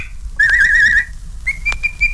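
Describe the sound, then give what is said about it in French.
A person whistles as if calling a neighbour's dog: a wavering, trilled whistle lasting about half a second, then a pause, then a steadier, sustained whistle with one brief sharp click partway through. “Siffle le chien de la voisine.”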